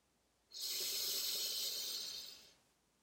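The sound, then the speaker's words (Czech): One deep breath drawn in through the nose during a guided breathing exercise: a smooth, airy hiss rises quickly, holds steady for about two seconds, then tapers off into quiet. “Až vydechnete, hluboce se nadechněte nosem.”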